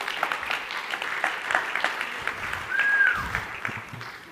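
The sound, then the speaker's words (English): An audience claps to welcome a guest onto a stage, moderate steady applause that swells slightly near the end, with a short whistle partway through. “So please put your hands together as we welcome Lindsay up onto the stage.”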